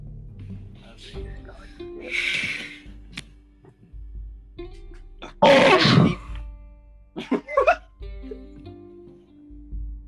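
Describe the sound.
Deep breaths drawn close into a microphone: a few long, noisy, airy rushes separated by quieter gaps, with small throat sounds in between.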